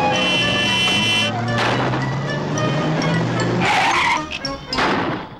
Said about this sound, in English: turn to stare as the roadster jerks and shudders erratically along the busy city street